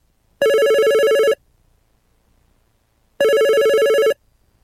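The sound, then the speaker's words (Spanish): A telephone rings with an incoming call: two long, bright electronic rings sound alone, separated by a silent gap. “Tenemos una llamada telefónica”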